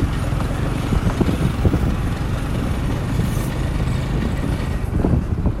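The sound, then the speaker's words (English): Matatu minibus driving through Nairobi, a steady low rumble of engine and road noise holding at an even level throughout. “That's illicit Mutatu driving. Oh yeah, he's going. He's going for it.”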